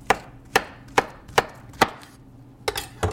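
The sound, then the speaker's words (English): Knife chopping four bananas into bite-sized pieces about an inch thick: five crisp, evenly spaced cuts, then a few quicker, uneven strikes near the end, with no voices. “We're going to chop the four bananas into bite-sized pieces. You just want them about 1 inch thick.”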